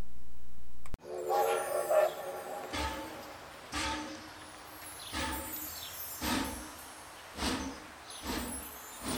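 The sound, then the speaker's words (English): A small character train arrives, sounding a whistle near the start, then a steady run of loud, evenly spaced chuffing bursts. “Le petit train des personnages arrive! The Disney Character Express is coming!”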